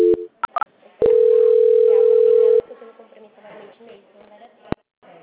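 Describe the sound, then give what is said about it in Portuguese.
Telephone tone while a call is transferred: a few short electronic blips, then one loud, steady, unbroken beep lasting about a second and a half, followed by quieter, low background murmur. “Só um instante que eu vou transferir, tá?”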